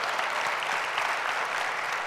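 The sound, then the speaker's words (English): Applause from a church audience welcoming its Wyoming campus, a dense, steady patter of many hands clapping that holds at an even, fairly loud level throughout. “Welcome, Wyoming campus. We'll give them a hand, absolutely.”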